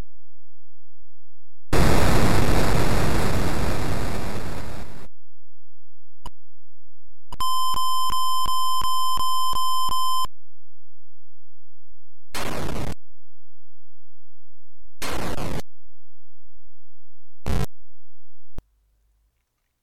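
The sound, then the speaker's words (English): Electronic sound effects from an arithmetic shooting video game: a long hissing noise burst, then a steady buzzy tone, followed by a few short bursts of static separated by silent gaps. “Here's some of the gameplay sound, and there are screenshots on the website.”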